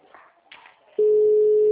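Telephone ringing tone during a call: a single steady, pure tone starts abruptly about halfway through and holds unbroken to the end, after faint, brief sounds.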